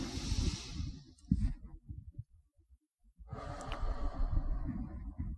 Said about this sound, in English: you can even do what's called box breathing, where you breathe in for 4 seconds, hold it for four, breathe out for four, and then wait for four.